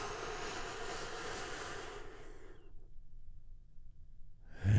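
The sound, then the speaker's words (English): A single long, airy deep breath during a guided relaxation exercise. Soft, breathy noise runs for a couple of seconds, then fades into silence, faint and alone without talk. “We begin by taking a big, deep, healing breath all together.”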